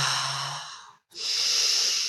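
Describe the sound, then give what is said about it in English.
Someone takes a deep breath in through the nose and breathes out through the mouth. A long airy inhale is followed by a short silent pause, then a broad, hissing exhale of similar length. “taking three nice deep cleansing breaths down into your belly through your nose. Exhaling out of your mouth.”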